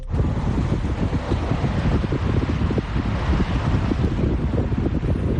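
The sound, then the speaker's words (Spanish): Strong wind blowing through the city of Alicante during a yellow-alert windstorm with gusts up to 80 km/h, a steady loud roar with rapid buffeting gusts hitting the microphone, no voices. “Así sopla el viento ahora mismo en la capital.”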